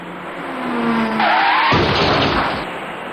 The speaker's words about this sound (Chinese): 很快一辆白色小客开了过来，您注意看。